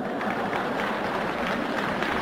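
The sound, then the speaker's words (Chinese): Warm applause from an audience at a comic crosstalk performance, steady, dense clapping that holds at an even level throughout. “大家对您报以热烈的掌声啊。”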